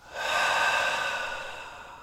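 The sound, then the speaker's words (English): A long breath sounds during a guided exercise of a double inhale through the nostrils, a hold and then a release. One airy rush swells quickly, then fades slowly over about two seconds, alone without talk. “Double inhale through the nostrils. Hold at the top, squeeze up all of your muscles, and then release.”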